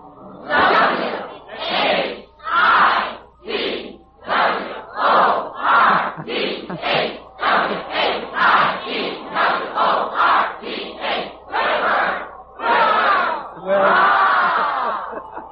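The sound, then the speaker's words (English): Crowd yelling and cheering at a Whitworth College sporting event in Spokane in 1939, many voices shouting together in a long run of short rhythmic bursts, like an organized college yell, with a longer swelling cheer at the end. “Sounds like some sporting event of some kind”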